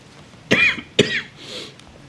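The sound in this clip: Two sharp coughs from a speaker at a talk on disaster risk, followed by a softer, rasping throat clearing. The sounds come alone, with no speech.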